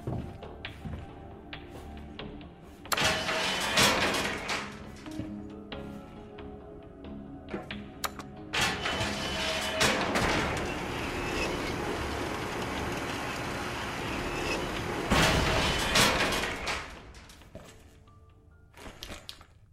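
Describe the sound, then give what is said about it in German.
Mechanical rumble and rattle of an elevator travelling down one floor. A steady grinding drone swells and settles, broken by several sharp metallic clanks and thumps, then thins out toward the end. “fand er einen Fahrstuhl. Mit diesem fuhr er eine weitere Etage nach unten.”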